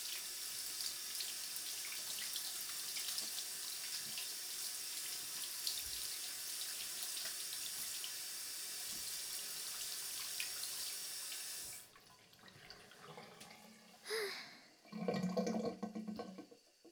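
Tap water runs steadily into a sink during rinsing, a constant splashing rush for about twelve seconds before it stops, followed by a few brief splashes and handling sounds.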